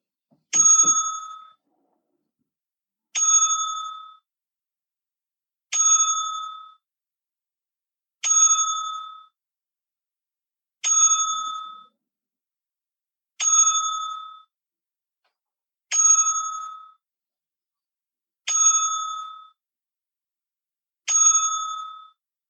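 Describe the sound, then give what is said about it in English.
A wrestling ring bell tolled for a ten-bell salute, nine evenly spaced, bright metallic strikes, each ringing out briefly before the next, with silence between. “So we here, Breaking Down the Ring, will be giving a 10-bell salute, as always, to anyone that we lost.”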